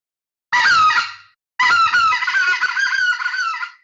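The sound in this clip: Two high, warbling yodel calls blown on a specklebelly goose call: a short one first, then a longer run of rapid, wavering notes, loud and alone.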